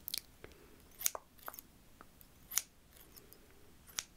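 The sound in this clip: Scissors trim hair during a relaxing haircut, giving a few quiet, crisp snips at uneven intervals with faint rustling between them.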